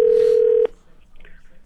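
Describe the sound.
A telephone being dialed: a steady, clear tone held for just over half a second, then an abrupt cut to faint line hiss, with a short burst of sound at the very end.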